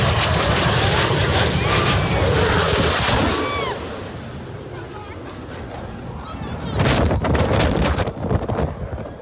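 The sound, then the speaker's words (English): Blue Angels jets fly very close to the deck with a loud, rushing roar that peaks early, eases off, then swells again near the end. “the sound of the Blue Angels flying very close to the deck.”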